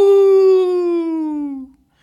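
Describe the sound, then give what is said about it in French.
A voice imitates a werewolf howl with a single loud, sustained "aouh" whose pitch sinks slowly before it fades out alone. “Parce que moi, avant, j'étais un loup-garou. Aouh !”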